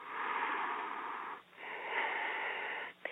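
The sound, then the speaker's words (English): Sibilant, hissing breaths through a closed mouth in a yogic breathing practice: two long, even breaths in a row with a brief pause between them, steady and moderately loud, with no talking. “close your mouth and continue to keep that sort of sibilant and it's kind of aspirant sounding on the inhale and kind of sibilant sounding on the exhale”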